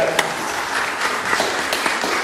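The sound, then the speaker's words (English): Audience applause at a church service: dense, steady clapping from many hands that holds at an even level throughout. “I think we can give Aileen a round of applause there.”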